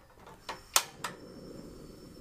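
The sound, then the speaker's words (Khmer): Gas stove burner being lit before cooking: a few sharp igniter clicks in quick succession, then faint low background noise. “មុនដំបូងនេះនាងខ្ញុំនឹងបើកភ្លើង”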